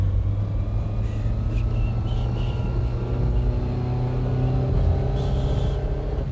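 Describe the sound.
A car drives fast out of town, its engine giving a steady, low rumble that holds an even loudness throughout, with a faint higher whine above it.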